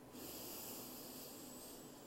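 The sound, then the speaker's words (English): One long, deep inhale during a breathing exercise, a faint, even rush of airy breath that swells in and holds steady for about two seconds. “Try to breathe. Do it again. Inhale.”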